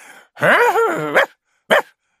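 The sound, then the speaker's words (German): A female dog barking: a long, loud, wavering yelp-like bark, then after a short pause one brief, sharp bark. “Kläfft die Hündin.”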